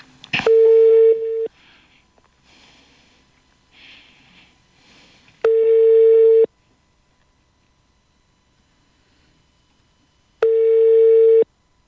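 Telephone ringing tone on a line while calling a race organiser: three long, steady mid-pitched tones of about a second each, spaced roughly five seconds apart, with faint noise and a sharp click before the first.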